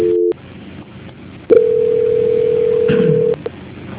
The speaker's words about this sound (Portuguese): Só um minutinho que eu vou estar transferindo a ligação, não desliga, tá?